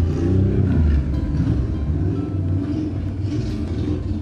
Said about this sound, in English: Okay. All right, the bike is gone. Let's continue.